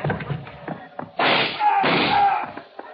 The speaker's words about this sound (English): It was the other shot. It sounded like a different gun, Phil.